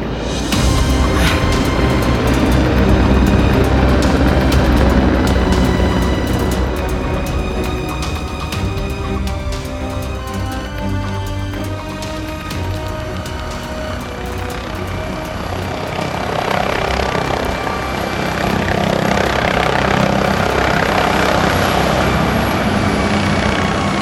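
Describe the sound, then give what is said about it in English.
A helicopter prepares to take off for a flight to an island. Its rotor and engine give a loud, steady roar with a rapid blade chop that continues throughout. “The unit helicopter that's taking me to the island is ready to leave, and I want to arrive before dark.”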